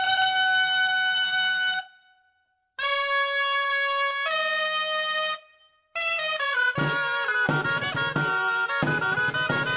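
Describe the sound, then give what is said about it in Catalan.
Toc de castells, the traditional music for human towers, played for the Saballuts castellers group of Sabadell: shrill, reedy wind tones sustain long notes in two phrases separated by short gaps, then move into a busier melodic passage. “Us sona? És el toc de castells, i és que ja fa 24 anys que els Saballuts, la colla castellera de la nostra ciutat, toquen el cel amb la mà.”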